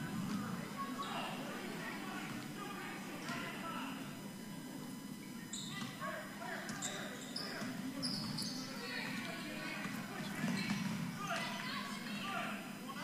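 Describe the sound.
A basketball is dribbled on court during a women's game, with repeated bouncing thumps under steady talk and crowd murmur.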